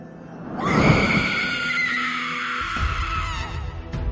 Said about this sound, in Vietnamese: Bỗng một âm thanh thét lên kinh dị, nhưng không phải từ quán linh trước mặt, mà nó từ một vị trí khác ở phía bên phải.